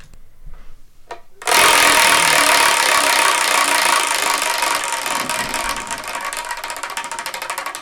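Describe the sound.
A prize wheel is spun. A few soft knocks come first, then a sudden loud, dense ratcheting clatter of rapid clicks runs on steadily and thins slightly toward the end.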